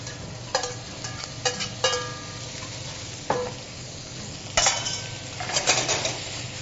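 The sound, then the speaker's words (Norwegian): Lamb meat sizzling as it fries in oil in a pot for a lamb korma, a steady hiss punctuated by several sharp clanks and scrapes of stirring, with no voices. “Måten man gjør det på, er som følger. Litt olje i bånn. Tilsette kjøttet.”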